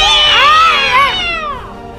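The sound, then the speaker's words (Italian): A person imitates an angry cat with a loud, strained yowl. The pitch wavers up and down in sweeping arcs before the yowl trails off softer at the end. “Che verso fa il gatto quando esce, signorina? Qual è il gatto? Tranquillo, il gatto arrabbiato.”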